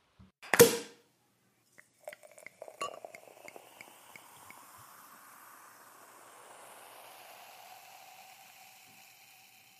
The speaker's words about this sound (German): Insofern Flasche auf und rein gucken und riechen.